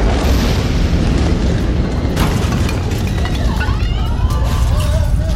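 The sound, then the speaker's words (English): An ammonium nitrate warehouse explosion at Beirut port gives a dense, loud, rumbling roar that stays at full strength throughout, with crackling debris-like texture and no clear pauses. “August 4th, 2020. In the port of Beirut, Lebanon, a nuclear-sized blast levels a warehouse containing a large amount of ammonium nitrate.”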